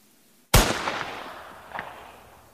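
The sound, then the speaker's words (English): A single gunshot from a Winchester .410 rifle fired at a snake cracks out loud and abrupt, then fades away slowly over about two seconds. “Today we're going to be shooting the snake with a 410 rifle at Winchester.”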